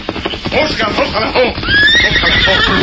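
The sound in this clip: Horse neighing, Silver, the Lone Ranger's horse: busy clattering hoof and movement noise gives way to a loud, high, drawn-out whinny over the final second.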